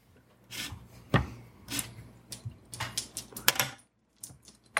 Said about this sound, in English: It's a percentile dice. I want to roll these, apparently.